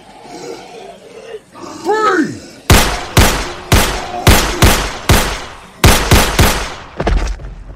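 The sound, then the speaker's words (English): Loud gunshots from soldiers lined up and firing on command ring out in many sharp, rapid cracks in quick succession. A strained, wavering vocal groan comes before the shooting starts. “Who's firing? That would be me, sir.”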